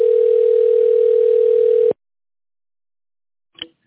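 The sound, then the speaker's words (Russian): A telephone ringing tone plays while a call is being connected: one loud, steady, mid-pitched tone of about two seconds, then silence broken by a single faint click. “We have not received a valid response. Please wait while we connect your call.”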